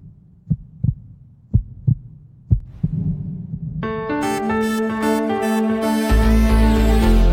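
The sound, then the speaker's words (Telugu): Heartbeat thumps arrive as three low double beats, lub-dub, before music with sustained tones swells in and builds to the end. “నా గుండె చప్పుడు నాకే వినిపిస్తుంది ఏంటి?”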